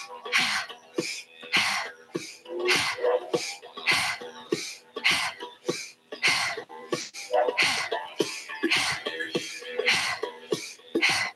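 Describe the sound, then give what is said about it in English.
Sharp, forceful breaths drawn in and pushed out during a breathwork exercise, a rapid, steady train of many loud, rasping bursts with no speech over them. “In, out, in, out. So sharp inhales, sharp exhales here.”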